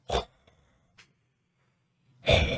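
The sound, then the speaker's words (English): A person imitates a sci-fi villain's mechanical respirator breathing with two loud, hissing breaths, one at the start and one at the end. Near-quiet separates them, broken only by a couple of faint clicks. “you hear the iconic Darth Vader breath.”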